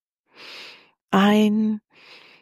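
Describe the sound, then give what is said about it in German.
During a guided breathing exercise, one breath is drawn in softly, a brief voiced, hum-like tone follows, and then a quieter breath is let out through the mouth. “Ein und durch den Mund ausatmen.”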